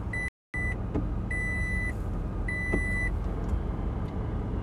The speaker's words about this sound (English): Okay, I'm driving over there.